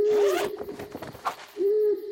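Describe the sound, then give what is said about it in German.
An owl hoots at night outside a tent: two clear, steady mid-pitched hoots, the first at the start and the second after a short noisy gap, with no talking. “das ist eine Eule”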